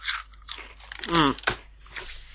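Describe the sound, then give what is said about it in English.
Salty crisps being crunched and chewed: a few crisp bites spread across the moment, with a brief voiced murmur in the middle and no clear words. “judging by the taste of these crisps, it seems like we drained the entire sea of all its salt content.”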